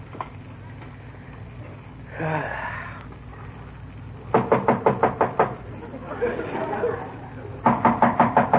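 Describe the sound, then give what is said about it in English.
Knocking on a door comes in two quick bursts of several sharp raps each. A person speaks briefly before and between them over a low, steady background hum. “somebody at the door”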